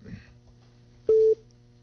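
A telephone disconnect tone sounds after a caller hangs up: a single short, loud, steady beep stands out over faint background noise.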